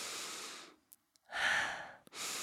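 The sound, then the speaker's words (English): Nasal breathing from someone whose nose had been blocked for a week, now clear after meditating. A few long, loud, airy breaths are separated by short silences and faint clicks, with no talking. “I can breathe through my nose right now. Listen.”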